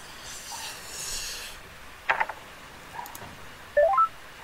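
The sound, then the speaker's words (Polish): Telephone keypad tones as a call is dialed: a few short beeps, a pause, then a quick run of stepped, higher beeps, all over a soft background hiss. “Nie wiem, czy ja dzwonię tutaj teraz do. Do Grześka, czy nie.”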